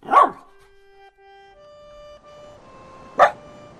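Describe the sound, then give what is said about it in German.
A dog that wants to be let outside gives two short, sharp barks about three seconds apart. Between them, faint steady tones hum softly, and no one speaks. “Sie streichelt den Hund, der sich neben sie legt und ihren Schlaf bewacht.”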